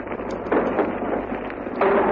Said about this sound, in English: And there we've hit the beach. Just simultaneously with that shell burst that you heard, we hit the beach.